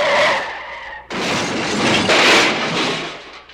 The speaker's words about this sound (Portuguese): Ô, seu cretino, você amassou todo o meu carro, vai ter que pagar!